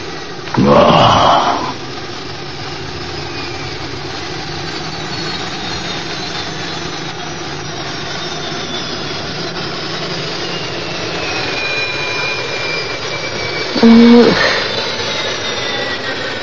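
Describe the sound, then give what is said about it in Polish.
A spaceship lands on an alien planet with a steady, broad engine-like roar that holds for the whole clip, swelling into brief louder bursts near the start and again near the end. “Jego statek kosmiczny wylądował na Namek.”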